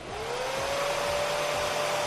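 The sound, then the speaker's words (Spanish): A hair dryer runs at a roadside: a continuous airy roar with a whining tone. The whine rises as it starts up, then holds steady and level. It is moderately loud and heard alone. “Sí, un secador de pelo.”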